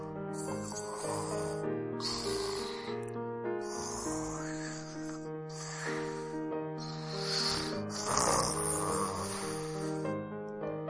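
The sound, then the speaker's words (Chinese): Snoring from a toy bear asleep sitting up on a sofa: breathy, hissing snores repeating in a steady rhythm over continuous background music. “皮皮和小兔听见小熊布布的呼噜声”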